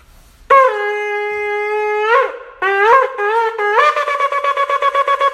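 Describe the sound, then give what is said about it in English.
A ram's-horn shofar sounds shevarim-teruah in one continuous breath. Three loud, brassy, buzzing broken notes, the first long, run straight into a rapid string of many short staccato blasts with no pause between. “So according to the Chazon Ish, this is how a Shvarim Teruah has to sound.”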